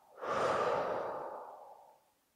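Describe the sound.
One slow, soft breath taken during a stress-relief relaxation exercise: an airy rush of air that swells quickly and fades away over about two seconds, quiet and alone.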